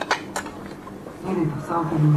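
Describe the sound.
Small plates and dishes are handled beside a cutting board, with a few light clinks early on and softer clattering afterward, under ongoing speech.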